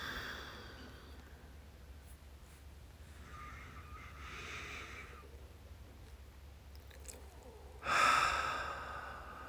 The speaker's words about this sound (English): I invite you to take some nice, full, deep breaths.